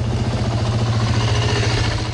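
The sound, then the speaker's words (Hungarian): A police quad bike being tested runs its engine steadily, giving a loud, even, mid-pitched rumble with a constant throbbing drone and no clear change in revs. “A rendőrök egyelőre csak tesztelik a mintegy 1,5 millió forintot érő járgányt. Október végéig használhatják, ha beválik, később folyamatosan is szolgálatba állítanak majd quadot, esetleg többet is.”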